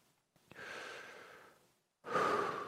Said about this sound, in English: I want you to take five deep breaths with me. Ready? Oh, sorry. There's one.